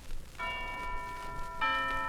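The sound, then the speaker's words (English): Bright chiming tones from tapping a set of four bells: two faint, clear ringing strikes, each left to sustain and ring on. “That's wonderful. Chimes.”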